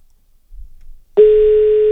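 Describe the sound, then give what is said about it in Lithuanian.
A steady telephone line tone as a call is dialled: one continuous mid-pitched note that starts abruptly after a faint low rumble and holds unbroken to the end. “Gerai, skambiname. Telefonas paruoštas.”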